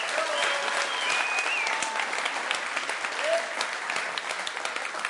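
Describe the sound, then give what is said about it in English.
Applause for mothers at a Mother's Day gathering: a steady, dense clatter of many hands clapping that holds at an even level for about five seconds, with a few whistles over it. “can we just give another real big round of applause for our moms that are in here today?”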